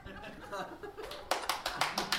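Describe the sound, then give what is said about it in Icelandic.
Hand clapping: a short burst of sharp, evenly spaced claps follows a stretch of voices and light laughter. “Nei, ekki klappa”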